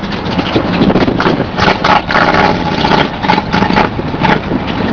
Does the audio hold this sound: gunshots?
no